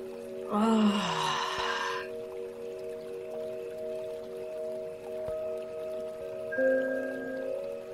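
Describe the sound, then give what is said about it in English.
A single deep breath during a guided meditation, a breathy rush lasting over a second, then soft steady tonal music humming underneath. “and take a nice big deep breath.”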